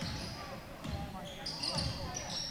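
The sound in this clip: A basketball being dribbled during a game as a player works around a high screen, with a few dull low thuds from the bounces over steady crowd noise and a mid-pitched squeak here and there.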